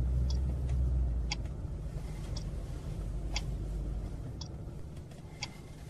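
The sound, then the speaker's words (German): Car rolling into the driveway of a film studio entrance, a low steady engine rumble with sharp ticks repeating regularly about once a second. “Bitte fahren Sie in die Einfahrt”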